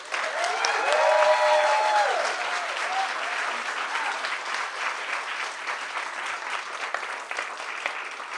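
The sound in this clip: Applause from an audience welcoming an award-winning debut fiction author at an evening event: dense, sustained clapping that is loudest in the first two seconds, with a few whoops and voices early on, then holds steady to the end.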